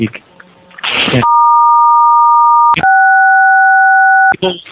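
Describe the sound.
A phone tone sounds during a committee meeting: two long, sustained electronic tones, each made of two blended pitches, the second pair set at a different pitch. Talk is heard before the tones and briefly between and after them.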